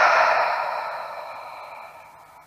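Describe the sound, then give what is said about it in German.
A deep, breathy exhalation through the mouth during a guided meditation, starting strong and gradually fading over a couple of seconds into quiet. “Und atme mit mir nochmal ganz kräftig ein und durch den Mund aus.”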